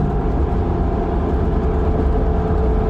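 A 4x4 truck engine pulls at mid throttle on a test drive, a loud, steady, low drone that holds an even level without pauses.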